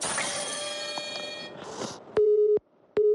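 Busy tone from a phone call that will not go through because there is no service: two steady, even beeps separated by a short silence, following a stretch of fainter, mixed sound.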